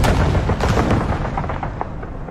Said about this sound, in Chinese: 不久，卢沟桥的枪声响起，拉开了中国全民族抗战的序幕。